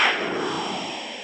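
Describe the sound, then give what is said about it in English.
A breaking news whoosh sting opens with a sharp swoosh and trails into a sustained, bright tonal wash that slowly fades. “The sound you just heard was a breaking news whoosh, or what we call a sting.”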